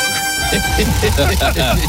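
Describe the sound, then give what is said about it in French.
A comedic alert horn sound effect blasts as a gag, its steady tonal blare running through the whole clip beneath people talking. “L'alerte a retenti.”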